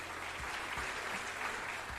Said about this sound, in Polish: I oklaski, proszę.